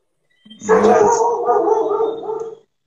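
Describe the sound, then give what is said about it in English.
Dog howling, one drawn-out tonal howl of about two seconds that starts strong and slowly tapers off, carrying a slightly rough, quavering edge. “That's my dog.”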